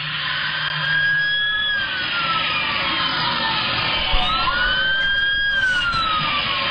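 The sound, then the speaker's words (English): A police siren wails during a high-speed car pursuit of a blue Toyota Corolla, its loud tone sweeping repeatedly up and down over a constant rush of road and engine noise, with no voices. “here's the video, and so all of it, you can't see it, but you can hear what's going on. In pursuit of a blue Toyota Corolla.”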